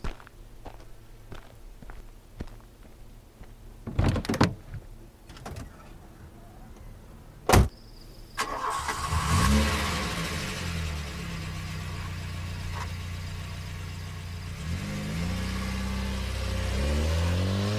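A car engine starts after a few footsteps and one heavy door thud, then runs and revs with a loud, steady rumble to the end as the car drives away.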